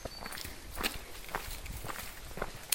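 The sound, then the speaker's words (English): Footsteps of someone walking past: a few soft, evenly spaced steps over a steady background hiss, with no other clear sounds. “Someone just walked directly past me and I didn't say good morning to them.”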